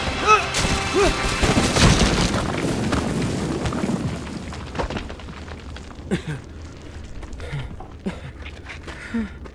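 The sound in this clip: A cave caves in during a fire, opening with a loud, dense rumbling roar that fades after a few seconds into scattered cracks and falling debris.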